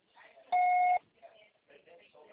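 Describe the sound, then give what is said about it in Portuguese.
A voicemail beep tone: a single steady electronic beep about half a second long, with faint speech before and after it. “Grave seu recado. Sua central será tarifada após o sinal.”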